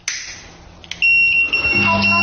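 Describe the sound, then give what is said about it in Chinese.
A smart stove's gas-leak alarm goes off after boiling-over water puts out the gas flame. A loud, high-pitched electronic alarm starts abruptly partway through and keeps sounding with shifting tones, after a few faint clicks. “这时候呢，我们的燃气会报警”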